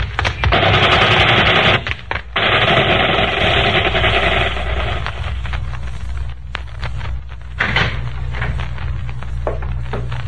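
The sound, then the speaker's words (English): Gunfire sound effect from a gangster radio drama, heard as loud, rapid machine-gun-like bursts forming a dense rattle for several seconds, then fading into a lower rumble broken by scattered sharp bursts. “We can shoot them.”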